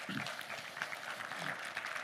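Faint applause in a Pentecostal church as a guest preacher is welcomed, a soft, continuous patter of clapping at an even level for the whole clip.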